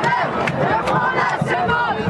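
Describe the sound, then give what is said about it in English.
A crowd of student protesters demanding school funding fills Bastille Square in Paris: a dense, continuous roar of many voices with loud shouts and cries rising above it. “Thousands of protesters are here in Bastille Square”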